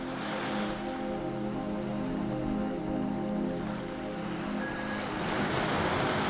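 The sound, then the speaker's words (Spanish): Gentle ocean waves breaking on the shore, heard as a steady, soft hiss and wash of surf that swells slightly and continues unbroken throughout. “y el crepitar de las llamas se mezclan con la frescura de la brisa y el suave sonido del oleaje.”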